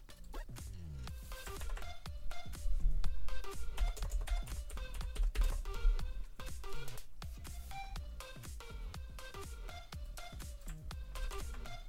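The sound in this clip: Rapid clicking on a computer keyboard as an 800 phone number is typed in. Many keystrokes follow one another in a fairly continuous, uneven patter.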